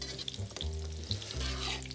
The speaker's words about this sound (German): Ich gebe dir mal einen Stampfer. Ja. Also ich will jetzt kein Püree, so ein bisschen Struktur soll noch drin sein. Ja, gerne. Aber ich das mal so grob durchstampfen.